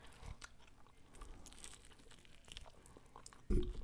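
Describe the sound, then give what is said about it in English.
A person chews a chicken wing with soft, irregular crunching and small bites, faint throughout, then one louder bite near the end. “This tastes really good. Right. Yeah. Because I feel like. I haven't had a chicken wing in so long.”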